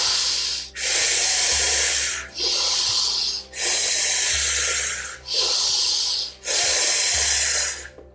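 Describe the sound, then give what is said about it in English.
Deep breathing in a guided breathwork exercise: six long, loud, airy breaths in a steady rhythm, strong inhales alternating with forceful exhales, over a faint low hum. “Keep going, keep staying with that breath.”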